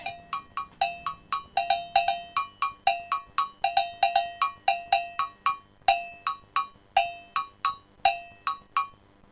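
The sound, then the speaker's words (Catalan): An agogô, the Brazilian metal percussion bell, played alone: many bright, ringing strikes in a steady rhythm, alternating between a lower and a higher bell tone. “Va, llavors és un instrument de percussió brasileny, encara que evidentment s'ha anat expandint a moltes altres regions del món. Voleu fer un tastet de com sonaria un agogó? L'escoltem així solet, a veure com sona.”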